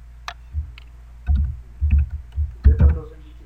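Computer keyboard typing as a computer name is entered during an operating system installation, with irregular bursts of clicky keystrokes separated by short pauses.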